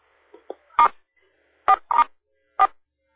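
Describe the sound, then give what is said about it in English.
Telephone keypad tones sound as star and 4 are pressed on a phone: a few short, clean electronic beeps in separate bursts, with no voices. “Why don't both of you hit star 4 on your phones, if you would?”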